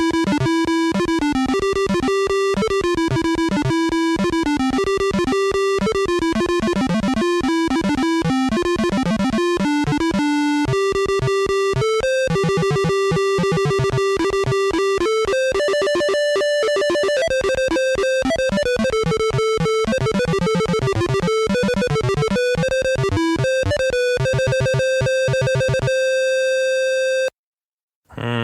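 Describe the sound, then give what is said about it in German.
Bard's Tale 2 game music plays through a PC speaker: a busy, bleeping square-wave melody with a second bass track, rapid beeping notes running continuously before cutting off abruptly near the end. “Das gelingt dem Bard's Tale 2 ganz nett und deswegen ist es ein wirklich ganz hübsches, düdeliges Stück. Und das klingt so.”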